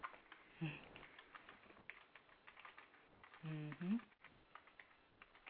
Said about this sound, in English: she had a problem with sound, so I had to type everything okay. in the chat room.